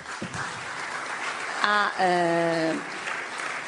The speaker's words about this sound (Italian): pregherei i nostri ospiti, a cui naturalmente dedichiamo un applauso